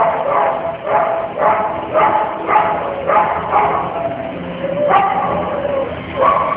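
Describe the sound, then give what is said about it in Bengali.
A dog barks fiercely in the distance from a valley, many sharp barks in a steady, repeating rhythm with a short pause before the last few. “হঠাৎ দূরে উপত্যকার দিক থেকে ভেসে এলো এক কুকুরের হিংস্র চিৎকার।”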